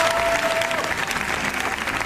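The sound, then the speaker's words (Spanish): Sustained, dense clapping from a large audience in a cinema at the Cannes film festival, steady and loud for the whole stretch with no pause. “Y en el cine, el largo aplauso.”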